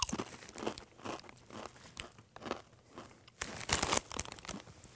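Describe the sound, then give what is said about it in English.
Crunching of Blazin' Buffalo Ranch Doritos tortilla chips being bitten and chewed: many sharp, crisp, crackling bursts in an uneven rhythm, loud and close, with no talk over them. “All right, let's try this. Blazin' Buffalo Ranch Doritos.”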